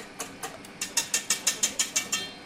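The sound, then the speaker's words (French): A stand mixer kneads butter into flour for a dough, making a quiet, steady run of evenly spaced mechanical clicks and knocks with no voices. “Hop, dans le batteur mélangeur, ça commence à prendre tournure.”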